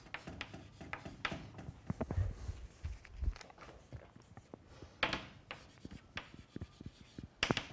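Writing on a board during a mathematics lecture on stability: many faint, irregular scratches and taps, with no talking.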